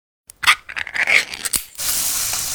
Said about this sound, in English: Oh, hear that? That's the Spam brand singing you a love song. Spam. Sizzle, pork, and mmm.